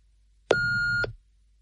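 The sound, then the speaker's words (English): An answering machine beep just before a caller leaves a message: a single steady electronic tone lasting about half a second, clean and fairly loud, heard on its own. “Thanks for calling. Please speak after the beep and I'll get back to you.”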